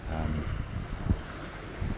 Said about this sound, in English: I'm sitting on the beach at the docks at Felixstowe, waiting for a ferry to take me to Harwich.